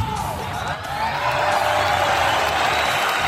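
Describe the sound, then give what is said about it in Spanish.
Crowd cheering and whooping with some applause, a dense, steady roar that swells louder after the first second and holds. “Pues sí, oye, esto se merece un aplauso, así que vamos a dárselo.”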